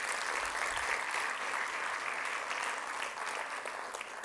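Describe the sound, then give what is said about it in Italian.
Audience applause for the technicians in an auditorium at a jazz lesson: dense, steady clapping that holds at an even, full level from start to finish without a break. “i nostri fantastici tecnici, a cui farei un applauso, come sempre, grazie.”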